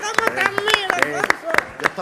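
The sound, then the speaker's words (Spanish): Rhythmic hand clapping in a radio studio, with a guest keeping time like a flamenco palmero. Sharp, evenly spaced claps repeat many times under people talking over them. “Yo estoy de palmero aquí. Como sí, puede ver, ser, ¿verdad? ¿Cómo cómo aplaude? Aplaude con nota. Y luego solo con dos manos.”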